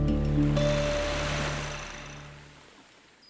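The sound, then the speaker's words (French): Sea waves wash around the sailboat Aélic while it is at sea, bound for the Caribbean. A broad rushing swell gradually fades away. “Alors que nous sommes en mer à bord du voilier Aélic, en direction des Caraïbes”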